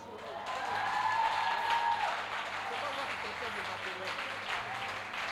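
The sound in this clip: A church audience applauds in praise during a prayer service, the clapping swelling loudly over the first two seconds and then easing to a softer, steady patter, with voices over it.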